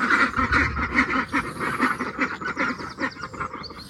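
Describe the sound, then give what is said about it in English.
Young ducks about eight or nine weeks old quack in a busy, overlapping chorus, with many short nasal calls in an uneven rhythm and no pause between them. “So these are ducklings that we got only a couple of weeks ago.”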